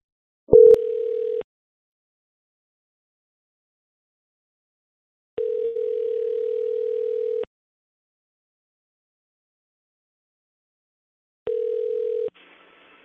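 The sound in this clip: Ringback tone of an outgoing telephone call: three steady, mid-pitched electronic tone bursts separated by long silences, the last burst shorter than the first two.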